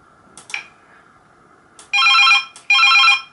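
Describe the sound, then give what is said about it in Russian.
Electronic trilling ring of a cordless telephone handset: two loud, high-pitched, sustained ring bursts follow a few faint short tones, with no voices. “Кстати, могу наоборот теперь звонить на первую трубку.”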